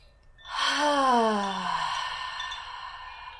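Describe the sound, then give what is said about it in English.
A deep breath let go as an audible voiced sigh, its tone sliding steadily downward before trailing off into breathy air. “Breathe in and let it all go with an audible exhale.”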